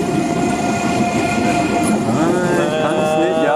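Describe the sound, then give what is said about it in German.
An ICE high-speed train rolls through a depot with a loud, steady rumble and wheel noise. Sustained tonal whine lines run through the whole stretch. “Hier rollt der ICE durch das Betriebswerk.”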